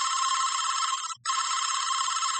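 A telephone rings unanswered: a loud, bright electronic trill that sounds as two long bursts split by a short gap, with no voice picking up.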